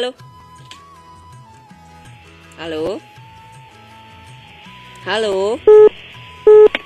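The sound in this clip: Two short telephone keypad tones as a number is dialed on a mobile phone for a cellular call. Each tone is a brief, clear electronic beep rising above a low, steady background.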